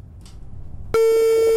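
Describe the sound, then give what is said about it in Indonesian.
A busy tone sounds after a phone call is cut off: a brief quiet stretch, then a steady, loud electronic tone that starts abruptly and holds unchanged. “Oke, terputus. Nanti kita akan coba hubungi lagi.”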